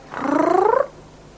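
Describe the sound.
A single drawn-out meow-like cat call, voiced and slightly rising in pitch, lasting under a second and then fading to quiet. No clear purring stands out.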